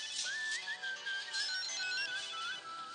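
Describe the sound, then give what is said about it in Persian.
A telephone ringtone plays as a warbling electronic melody, bright and high, repeating steadily and continuously without pause and with no voices over it. “برو کوشین داره زنگ میخوره، برو جواب بده.”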